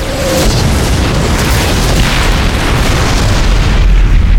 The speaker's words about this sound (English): As if on cue, the gunships fired incendiary rockets.